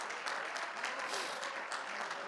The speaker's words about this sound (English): Would you clap your hands? Come on, would you clap your hands unto the Lord?